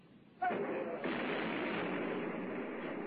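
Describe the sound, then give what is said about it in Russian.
Gunfire and artillery in a firefight: a sudden loud blast hits early, then a dense, rumbling roar carries on without a break to the end. “ведем огневой бой. Веду огневой бой.”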